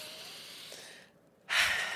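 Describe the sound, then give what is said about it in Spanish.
Deep breathing during a guided breathing exercise: a long, soft, airy breath fades out, followed by a short pause and then a louder, rushing breath. “Ahora, otra vez vamos a respirar juntas.”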